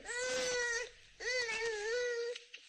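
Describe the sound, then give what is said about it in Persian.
A young child cries in a village in Herat, two loud, wailing sobs with a short pause between them, the second trailing off into a faint whimper. “این صدای گریه کودکی است در یکی از روستاهای هرات.”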